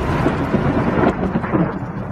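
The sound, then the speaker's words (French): Thunder from a violent overnight storm over Montpellier in southern France: a loud, steady low rumble fills the whole clip, mixed with a rain-like hiss and no talking. “De violents orages se sont abattus sur Montpellier cette nuit.”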